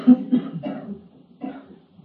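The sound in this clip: A few hoarse, voiced coughs come in short bursts with brief pauses between them, moderately loud and heard alone.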